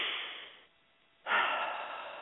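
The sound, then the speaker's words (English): A slow, deep breath taken during a guided healing breathing exercise: a long airy rush that fades, a brief silent pause, then a second, louder breath that tapers off gradually, with no talk. “Take a healing breath with me.”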